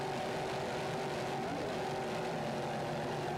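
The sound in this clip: Racing powerboats in the Super V class, a 40-foot Fountain battling an Outer Limits boat, produce a loud, continuous engine roar that holds a steady droning pitch throughout.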